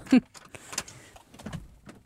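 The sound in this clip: A studio door is opened to let a guest in, with a sharp click of the handle followed by a few faint clunks and rattles.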